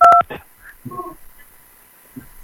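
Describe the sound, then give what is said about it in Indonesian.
A telephone keypad dialing tone as a call is connected: one short, loud two-tone beep at the start, followed by faint line noise and a few brief, quiet murmurs. “Kalau belum ada di Palembang, kita sambungkan untuk Jakarta ya.”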